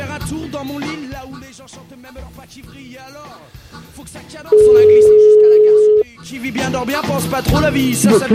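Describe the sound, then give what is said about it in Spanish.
A single steady telephone ringback tone sounds for about a second and a half while a phone call waits to be answered, framed by talk before and after. “Estamos a la espera de si el compañero nos coge el teléfono.”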